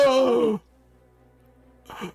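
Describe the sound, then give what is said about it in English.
A voice imitates breath sucking in and out of a small hole chipped in stone beside a carved mouth. It starts with a long, breathy, groaning exhale whose pitch falls, then goes quiet, and ends with a shorter breathy sound. “There's breath sucking in and out of the small hole that you just chipped in the stone by the mouth.”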